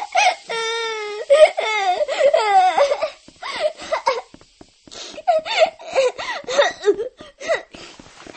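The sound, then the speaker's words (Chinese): A child crying alone in repeated high, wavering sobbing wails broken by short gasping pauses, loud bursts rising and falling through the whole stretch. “别哭了，哎，别哭了，说谁欺负你了？”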